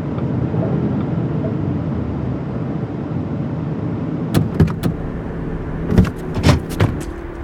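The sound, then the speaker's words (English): A car pulls into a gas station, its engine giving a steady low rumble throughout, with a few sharp clicks and knocks near the end. “Yo, I gotta pull up in this gas station right quick.”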